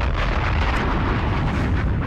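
Loud bomb explosion sound effect, a dense, rumbling roar of broad noise that holds steady without a sharp onset or fade.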